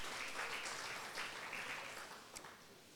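A church audience in Kampala applauds in praise of the Lord with faint, steady clapping that stays even for a few seconds.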